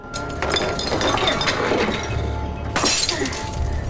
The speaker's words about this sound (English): She smashes a wine bottle.